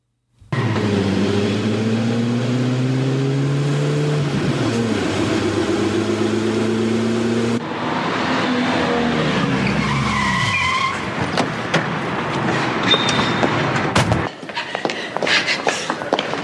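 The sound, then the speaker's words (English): Car tires screeching as the vehicle is driven very fast, a loud, sustained squeal with shifting tonal bands whose pitch drops midway, followed by a harsher, noisier rush of skidding that runs to the end. “Sydney's scream turns into the screeching of tires as she is driving really fast to SD6.”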